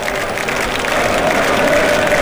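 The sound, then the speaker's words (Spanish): Scottish fans applaud during a football match at a stadium in Boston, a dense, steady wash of clapping and crowd noise that holds loud throughout. “Los aplausos de los escoceses, ¿no?”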